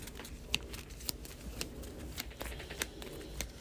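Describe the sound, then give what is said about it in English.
Playing cards are drawn from a deck during a tabletop card game, giving faint, crisp flicks and snaps that come as a few scattered, separate clicks over quiet background noise. “I will ready everything. And I will draw 5.”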